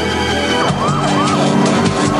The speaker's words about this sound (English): Outside, employees stand with their backs to the street as a fire truck pulls up.